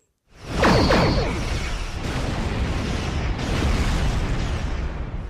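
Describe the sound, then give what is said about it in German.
A space battle sound effect of spaceships firing laser cannons bursts in with a sweeping whoosh, then settles into a loud, sustained roaring rumble streaked with crackling bursts. “Weltraumschlacht. Raumschiffe, die mit irgendwelchen Laserkanonen schießen und wir hören das.”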